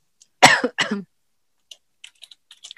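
Faint computer-keyboard keystrokes, someone typing a search term into analysis software, come as several light, scattered clicks after a loud cough or throat-clear at the start.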